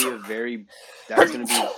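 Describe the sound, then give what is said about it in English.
A single loud, breathy sneeze bursts out right after a short stretch of a man talking. “God bless you, America. You good, dude? You pull your back when you sneeze? I tried to mute my mic fast enough. I couldn't do it.”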